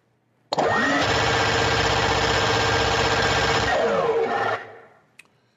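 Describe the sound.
Rapid whirring clatter of a prize wheel spinning up: a dense, steady run of clicks that holds for about four seconds and then tapers off, followed by one faint tick.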